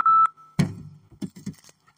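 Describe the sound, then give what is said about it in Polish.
A timer alarm beep marks the end of a speaker's allotted time: one loud, steady, high-pitched tone at the start, followed by a few soft knocks and thumps. “Był alarm, że mam się kończyć, to coś innego. Mam kończyć, sorry.”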